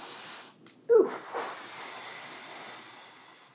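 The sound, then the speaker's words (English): A person takes a deep breath between coughing troubles: a sudden breathy intake rises sharply mid-clip, a second softer gasp follows, and a faint airy hiss lingers quietly afterward. “I have to take another breath.”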